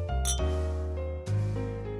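Wine glasses clinking in a toast, a brief bright chime near the start that rings over a quiet, low background hum.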